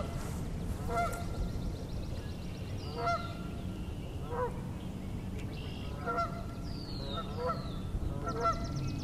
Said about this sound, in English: I can zoom in on these geese. I can get a good view here.